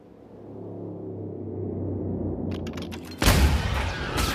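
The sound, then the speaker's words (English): A single sharp gunshot from an automatic pistol, fired in a snowy standoff in a Max Payne audio drama, bursts loudly over a low droning bed, with a second smaller crack near the end. “The gun fires in a puff of snow and the bullet bursts out of Hensley's back.”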